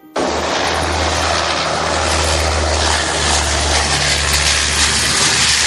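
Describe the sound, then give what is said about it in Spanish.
An air force propeller airplane circles over a drifting boat at sea. Its engine drone cuts in abruptly and then holds loud and steady, a dense roar with a low hum underneath. “El avión dio vueltas sobre el cayuco, hizo varias pasadas y desaparecieron.”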